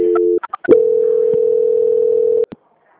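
Telephone tones play during a call transfer: a brief steady tone, a few short blips, then a long unbroken tone that cuts off abruptly with a click, with no talking.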